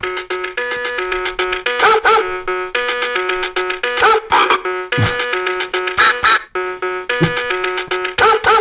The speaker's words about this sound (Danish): Det er en hund med identitetskrise.